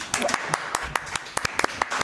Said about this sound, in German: Nochmal einen Applaus für Niki.